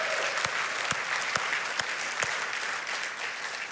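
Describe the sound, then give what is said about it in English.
Applause from a church audience welcoming its online church: sustained, full clapping from many hands that holds steady throughout, with a few sharper claps standing out at a roughly regular pace. “So the you guys that are here that are part of our in-person service, would you join me in welcoming our online church? Can we just give them a hand and let them know we're glad they're here?”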